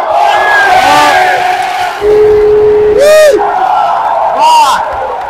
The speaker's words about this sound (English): The crowd is coming alive. Good game, folks. Good game.